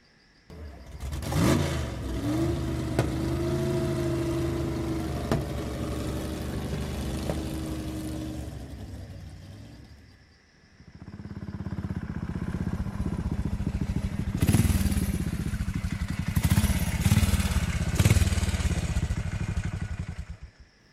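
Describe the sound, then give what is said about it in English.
A motorcycle engine starts and runs at a steady, humming idle, dips briefly, then returns as a louder, rougher roar with a few revving surges as the bike rides off. “Let's get back onto the bike.”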